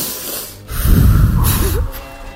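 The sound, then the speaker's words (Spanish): A deep breath is drawn in, a loud, rough, breathy rush with a snort-like edge that swells after a brief quieter moment and holds for well over a second, with no talk over it. “Vamos a respirar hondo.”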